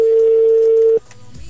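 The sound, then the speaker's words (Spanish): Ringback tone on an outgoing phone call, a steady, unbroken mid-pitched tone for about a second that cuts off abruptly, leaving faint line noise behind. “Ahí está. Está sonando. Está sonando en este momento. Ok. Ahí está sonando.”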